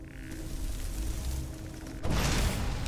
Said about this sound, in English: It wasn't a sneak attack. I tried, though. It's almost like the casting of the spell was too loud.